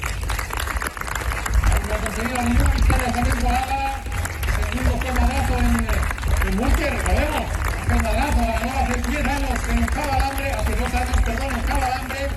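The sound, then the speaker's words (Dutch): Crowd applause greets a Spanish cycling team, Burgos Beach, at its presentation: a dense, steady roar of clapping runs throughout, with an amplified announcer's voice speaking over it. “Gisteren werden jullie als ploeg voorgesteld aan het publiek. Dat klonk zo. Een fortissimo applaus voor het equipo Burgos Beach.”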